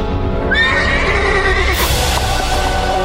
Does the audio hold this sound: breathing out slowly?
no